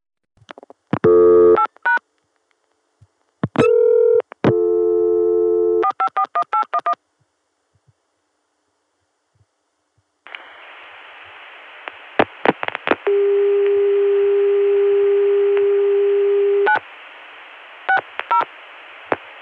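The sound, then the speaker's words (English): Bursts of touch-tone dialing beeps give way to a steady, sustained dial tone from a Chicago telephone switch that lasts several seconds over faint line hiss. Sharp clicks break in during the tone, and a few more short clicks follow. “Chicago 400 Hz dial tone. So we'll be getting a very clean connection all the way to the Chicago switch”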